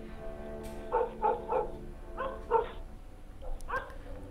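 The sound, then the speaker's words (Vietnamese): Dogs bark faintly in the distance across fields at night, in several loose clusters of short barks over a steady background hiss. “Thỉnh thoảng có nghe tiếng chó sủa vu vơ ở đâu đó, văng vẳng như là tiếng chó cân ma ở bên kia cánh đồng.”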